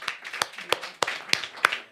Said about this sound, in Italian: ringraziamo il pubblico che è venuto fin qui, fatevi un applauso.